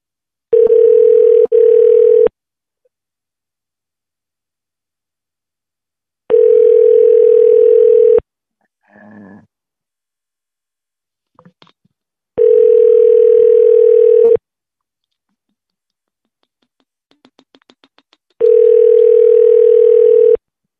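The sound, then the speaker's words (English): A telephone ringback tone sounds while a call is placed to a convenience store: four steady, loud tones of about two seconds each, separated by longer silences with a few faint, brief clicks and noises in the gaps. “let's call the 7-Eleven assholes, or the asshole.”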